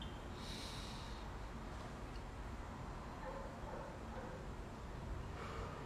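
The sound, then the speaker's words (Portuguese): A long, deep breath drawn in through the nose during a guided breathing exercise: a steady, airy rush of air lasting several seconds, even in loudness, with no talk over it. “Inspira pelo nariz profundamente.”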